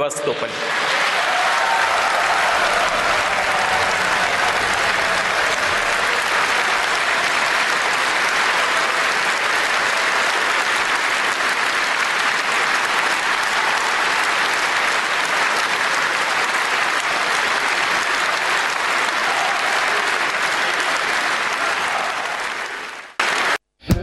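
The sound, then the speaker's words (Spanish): Russian Federal Assembly members applaud after a speech about admitting Crimea into Russia. The clapping is loud and unbroken for over twenty seconds, then cuts off abruptly near the end. “Y los rusos todos aplaudiendo.”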